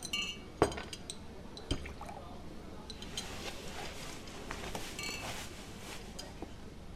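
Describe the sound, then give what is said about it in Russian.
Vodka poured into a shot glass: a couple of faint glass clinks near the start, then a soft, continuous trickle of liquid, quiet throughout. “Офицер наливает водку в рюмку.”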